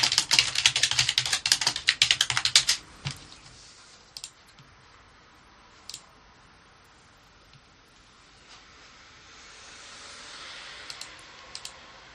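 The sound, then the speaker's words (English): Rapid keyboard typing: a dense burst of clicking keystrokes for about three seconds, then quiet with only a few scattered single taps. “Oh, I'll keep typing.”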